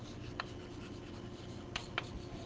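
Faint scratching of writing on a board during a lecture. A soft, continuous rubbing is broken by three sharper ticks as the writing tool strikes the surface.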